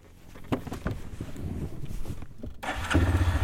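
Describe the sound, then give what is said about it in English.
Quad bike engine as children ride it in a sand pit: a continuous rough, revving drone with low throbbing tones, steady throughout and growing louder near the end. “where some children are riding a quad in a sand pit”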